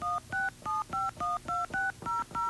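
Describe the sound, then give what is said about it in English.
Touch-tone keypad beeps as a home area code and phone number are keyed into a phone company's automated line: nine short, evenly spaced dual-tone beeps at slightly different pitches, crisp and steady, with no voices. “Using your touch-tone keypad, please enter your home area code and phone number. Let's enter”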